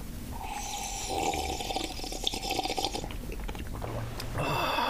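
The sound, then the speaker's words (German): Coffee being sipped, wet slurping and mouth noises blending into a steady, fairly loud background noise throughout. “wir trinken erstmal einen Schluck Kaffee und dann geht's wieder”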